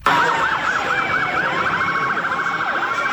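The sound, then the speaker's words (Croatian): Police sirens wail through New York streets, a loud rapid warbling tone with other rising and falling siren sweeps layered over it, continuous for the whole stretch. “Policijske sirene, blokirane ulice. Tako New York već tradicionalno zvuči i izgleda svakog rujna.”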